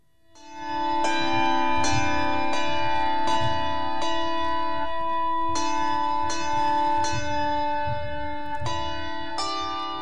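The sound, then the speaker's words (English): Handbells play a simple melody, one clear ringing note after another at a steady, unhurried pace, each tone sustaining and overlapping the next with bright, shimmering overtones. “So that's Mary Had a Little Lamb played on the handbells.”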